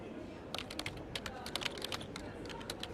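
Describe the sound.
Key clicks from typing on a computer keyboard, with many quick irregular taps over a steady low background hiss.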